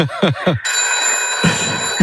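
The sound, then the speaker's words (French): A telephone bell rings in one sustained, bright, metallic trill lasting over a second, following a few brief voice-like bursts at the start. “Il y a forcément un téléphone qui sonne.”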